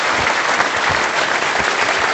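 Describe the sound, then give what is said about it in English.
An audience at a cricket evening applauds four guests, among them Imran Khan. The clapping is loud and dense, a steady wash with no break. “but above all, I think, as you applaud all four of them, the master gave us a great night.”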